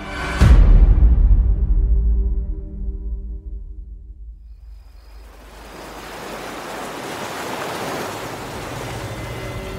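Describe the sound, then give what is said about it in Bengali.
Breaking ocean waves crash loudly as a radio drama effect: one heavy, booming crash with deep rumble slowly dies away over several seconds, then a steady hiss of surging surf swells back up. “ঢেউ ভাঙার এমন প্রবল শব্দ হলো এই সময়টায় যে অন্য কোনো শব্দ কানে গেল না”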